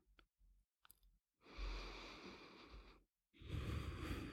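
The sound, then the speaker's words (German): Deep breathing in and out: a few faint clicks, then two long, airy breath rushes separated by a short gap, the second one slightly louder and rougher. “Und dann lass uns einfach mal gemeinsam ganz tief ein und ausatmen.”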